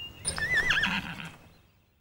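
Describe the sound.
A horse neighs in one bright, wavering whinny that rises quickly and then trails off, moderately loud and alone.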